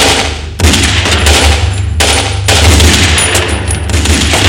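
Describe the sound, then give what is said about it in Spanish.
Loud gunfire from two pistols fired at once by a gunman fleeing across a street, a dense, rapid volley of shots with a couple of brief breaks. “El chino huye disparando a dos manos.”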